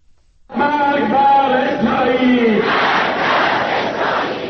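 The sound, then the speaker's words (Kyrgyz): Demonstrators in Tehran chant anti-Israel slogans in unison at a Quds Day rally supporting Palestinians. Loud massed voices begin abruptly after a brief silence, then swell into a broad, sustained crowd roar. “Израилге өлүм деп кыйкырып жатышты Тегерандагы демонстранттар.”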